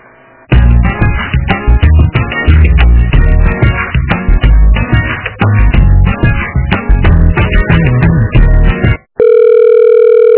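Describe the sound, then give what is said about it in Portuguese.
Telephone line sounds while a call is transferred to extension 4121: a long stretch of dense, tonal, music-like sound, then a brief dropout followed by a steady sustained tone. “eu tô tentando ligar no número 4121, mas ninguém atende ali, consegue transferir por aí? Eu vou tentar, só um minutinho.”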